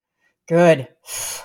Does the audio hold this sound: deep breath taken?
yes